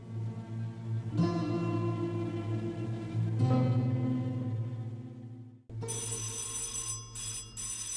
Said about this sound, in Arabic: ما تردش على التليفون. مش جايز. أرجوك ما تردش على التليفون خالص.